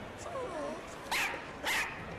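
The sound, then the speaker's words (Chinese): A dog sniffing around a shop counter barks at a crowd. Two short, sharp, high barks stand out over a faint, hissy background. “用他灵敏的鼻子嗅着柜台，对着人群嗡嗡地叫着，但是就是找不到主人伊万”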